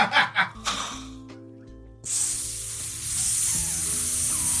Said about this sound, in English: Fire noises.